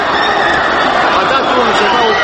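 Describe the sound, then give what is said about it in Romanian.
A huge crowd at a 1989 Bucharest rally staged for the dictators turns against them, a loud, unbroken roar of shouting and babbling voices with no pause. “Puteți asculta câteva fragmente audio ale momentului cheie în care mulțimea adunată de autorități la mitingul în sprijinul dictatorilor s-a întors împotriva lor.”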